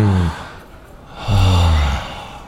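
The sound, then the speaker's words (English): A deep breath drawn in and let out: a brief breath at the start, then a longer, louder, voiced sigh of release, with no talking. “We all need to kind of just take a deep breath together.”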